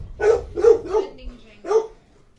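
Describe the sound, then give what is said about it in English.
A dog barks four times in mid-pitched, short barks. Three come in quick succession, then after a brief pause a single bark follows. “Django is barking. There's not even anybody there, Django.”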